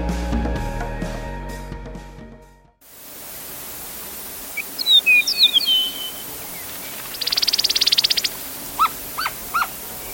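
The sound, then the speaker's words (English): An Eastern Meadowlark sings several phrases of clear whistled notes and a buzzy trill, fairly faint over steady background hiss. A short passage of music before it cuts off abruptly. “That's the sound of the Eastern Meadowlark, one of Jonathan Franzen's favorite birds, recorded in 2012.”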